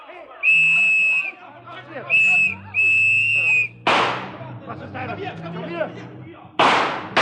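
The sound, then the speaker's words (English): A handgun fires in a dramatized chase, with two sharp, loud, cracking bursts. Several shrill sustained whistle blasts and voices come before the first shot, and busy noise and voices run between them. “Suddenly there was a gun in his hand. Sergeant Payne was in front of him now. Harry fired once, but he never stopped moving.”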